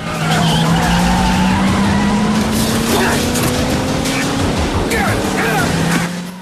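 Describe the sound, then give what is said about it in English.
A car careers out of control and skids after crashing into a workman's brazier: a sustained loud tire screech over a steady engine drone that carries on almost without a break before cutting off at the end. “A workman flees as Mike's car careers into his brazier and zooms on.”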